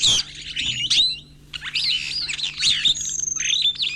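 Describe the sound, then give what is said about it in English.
Superb starling calls from East Africa, a busy, high-pitched stream of chattering chirps, whistles and squawks that continues without pause and includes one longer held whistle. “But scientists studying superb starlings in East Africa have learned that the females of this species seem to be the ones with cheating on their minds.”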